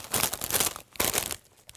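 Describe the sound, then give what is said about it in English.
Crunching on ranch-flavoured potato chips gives dense, crackly bursts of chewing, two louder spells separated by a softer stretch, with no talk. “Sorry for crunching into your ears, by the way. Edit this out. Edit all the crunching out.”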